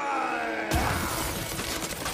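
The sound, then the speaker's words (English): Ice being smashed with a club by a Viking: a sudden loud shattering crash, followed by continuous crackling, crunching and rumbling as the ice breaks up. “That big Viking is about to smash the ice with his club.”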